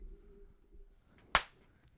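A slap sound effect snaps out once, a single sharp, loud crack that dies away quickly, standing alone over a faint low hum with no talk.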